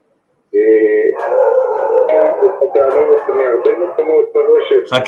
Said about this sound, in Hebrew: יש פה כלבים מגעילים שנובחים בצורה זוועתית, לא יודע מה עושים להם, אז זה קצת הפריע